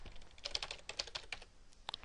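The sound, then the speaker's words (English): Typing on a computer keyboard into a text box: a faint, irregular run of many quick, light key clicks, clustered in bursts with brief pauses. “Now if we go ahead and start, put the cursor in there and start typing,”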